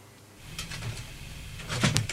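A door moving, with a low rumbling slide that builds gradually, then a couple of sharp clicks and a knock near the end.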